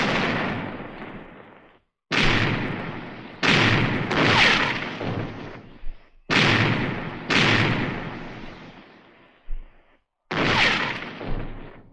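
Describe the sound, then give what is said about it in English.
Ship's cannons firing a broadside in battle: a rapid series of heavy, booming blasts, each loud crack rolling into a long, rumbling decay before the next shot. “Give them another broadside! Pound them, lads! Pound them!”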